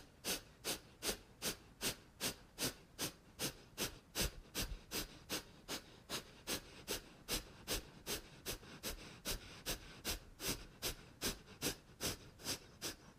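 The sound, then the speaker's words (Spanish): Forceful kapalabhati breathing during a yoga practice: many sharp nasal exhalations in a fast, even rhythm of roughly two per second, each a short breathy puff, fairly soft and continuing steadily throughout. “Inhala profundo. Exhala, kapalabhati.”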